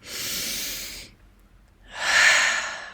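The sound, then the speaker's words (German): A deep breath drawn in, then let out: two long, breathy hisses separated by a brief quiet pause, with the exhale slightly louder than the inhale. “Atme nochmal ein,”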